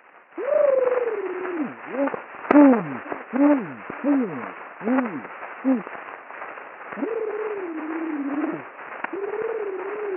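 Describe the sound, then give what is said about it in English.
A man makes a warbling trill, counts aloud to six, then trills twice more, heard in an early optical sound recording with a thin, muffled, band-limited tone. “In this recording, you can hear one of the associates making a trilling sound, count to six, and then trill twice again.”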